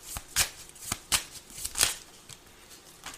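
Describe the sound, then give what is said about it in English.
Playing cards being shuffled and drawn during a card reading: a series of quick, crisp riffling bursts with short pauses between them, sounding alone without any talk. “Okay, let's take a few cards. May I have a few cards, please?”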